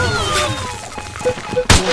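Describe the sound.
Video game grenade launch and gunfire: a few smaller pops and bursts build up, then one loud, sharp blast near the end, set over busy background game audio.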